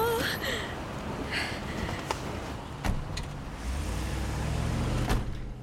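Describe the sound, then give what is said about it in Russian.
A white van drives away, giving a faint engine rumble that grows lower and fuller over the last couple of seconds, with a few soft clicks and thumps. “Отъезжает белый фургон.”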